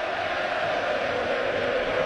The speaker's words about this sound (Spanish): De la República Dominicana, José Ramírez, el público, ustedes lo escuchan, José, José, José.